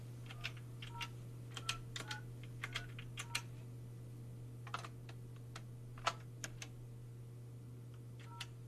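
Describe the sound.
A telephone number is dialed to reach a contestant, heard as many soft, quick key clicks in an irregular rhythm over a faint, steady low hum.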